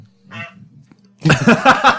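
A goose in a video game honks: one short, nasal honk, then after a brief pause a much louder, denser burst of sound.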